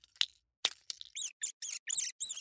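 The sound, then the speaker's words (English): High-pitched squeaks from a rodent escaping a mousetrap: a few scratchy clicks, then a quick run of about five sharp, shrill chirping bursts, loud and with no voices. “This is the sound of a rodent escaping from your mousetraps.”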